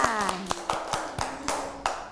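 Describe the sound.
Children clap for a classmate, giving about eight separate, uneven hand claps spaced out over a couple of seconds rather than a steady round of applause.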